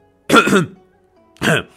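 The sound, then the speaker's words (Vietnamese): A person clears their throat in two short, gruff bursts: a longer rasping one, a pause, then a briefer second one, loud against silence. “Cuối cùng Tư Đồ Tiếu hắng giọng.”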